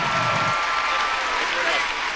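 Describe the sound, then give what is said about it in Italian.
A television music show audience gives warm, sustained applause for a music producer and artist during a live voting broadcast. The clapping stays loud and continuous, with a presenter's voice running over it. “Facciamo un grande applauso a questo straordinario produttore e artista.”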